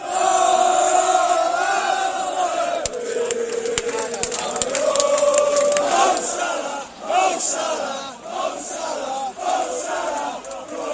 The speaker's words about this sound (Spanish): Este es el sonido de hace unos minutos en el centro de Barcelona, aficionados del Liverpool.